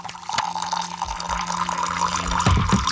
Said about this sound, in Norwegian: Det noen som heller seg opp litt te, ja. Rører litt.